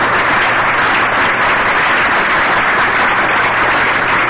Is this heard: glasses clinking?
no